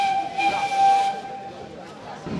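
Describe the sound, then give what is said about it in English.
An ancient steam train whistles at the Vatican station. A steady high whistle sounds over a bed of hissing steam, cuts off after about a second, and the hiss carries on alone. “delegates and special guests climbed aboard an ancient steam train at the Vatican station for the short journey to the Umbrian hill town of Orvieto.”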